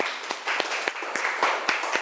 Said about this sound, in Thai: ดอกบัวปรบมือให้เพื่อนหน่อยครับ